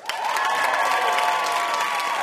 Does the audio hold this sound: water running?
no